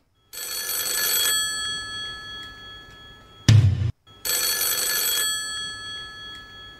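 A telephone bell from a game show rings in two bright, harsh, rattling bursts, each about a second long. A softer lingering tone and a short, louder low noise fall between the two bursts.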